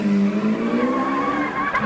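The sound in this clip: Tires squeal loudly as a car starts and speeds off, a continuous high, wavering screech over the car's engine noise that lasts throughout.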